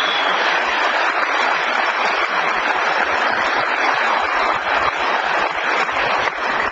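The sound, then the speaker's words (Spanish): Sustained audience applause at a live talk, dense, even clapping at a steady loud level throughout, with no voices standing out. “Miren, denle un aplauso a esa gente que está aquí desde Mayagüez.”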